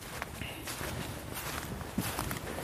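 Footsteps walk cross-country off the path into a forest, faint soft crunches and rustles in a steady walking rhythm over a constant rough background.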